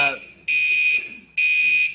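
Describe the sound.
A smoke alarm in a building, set off by burnt toast, sounds two long, loud, high-pitched electronic beeps with short gaps between them, just after a brief bit of voice.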